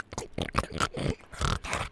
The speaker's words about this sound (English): And then I'm also using my soft palate to make growling, snorty sounds.